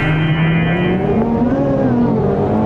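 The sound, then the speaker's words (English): A naturally aspirated C8 Corvette Z06 and a supercharged 2020 GT500 on factory street tires roar in a drag race. The loud, continuous engine drone rises steadily in pitch, with no talk. “Damn, too much wheel spin, man. Oh man, when this thing puts the power down. Oh, it's just pulling away”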